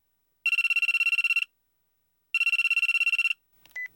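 A telephone ringing in two loud, trilling electronic bursts of about a second each, separated by a pause, followed by a brief faint sound.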